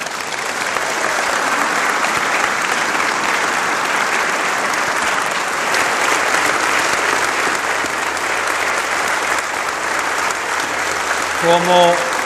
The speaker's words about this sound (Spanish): Como yo siempre digo, el aplauso es para ustedes.